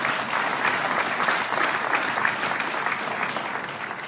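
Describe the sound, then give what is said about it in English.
Church audience applauding its students. The clapping is dense and steady, fairly loud, and holds evenly throughout without a pause. “Can we go ahead and just give it up one more time for our students, what God is doing there?”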